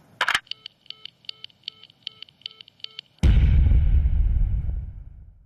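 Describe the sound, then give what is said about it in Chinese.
A telephone being hung up in a small shop during an urgent call: a brief clatter, then a run of about nine short, evenly spaced electronic beeps, followed by a sudden loud, sustained burst of broad noise that fades near the end. “连忙挂断了电话”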